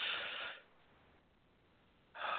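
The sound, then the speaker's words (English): A slow, deep belly breath drawn into the diaphragm, a soft airy rush that fades to near silence and then returns as another long breath. “The aim is to do a belly breath deep into the diaphragm, because, of course, the vagus nerve innervates, you know, also helps innervate the diaphragm. And slow breaths, like.”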